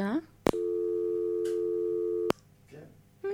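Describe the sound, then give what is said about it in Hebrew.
A telephone busy tone follows a dropped call, sounding as a steady electronic hum for nearly two seconds. It breaks off briefly while a voice is heard, then resumes at the end. “שיחה נותקה, אנחנו נמשיך, היא בטח תחזור אלינו.”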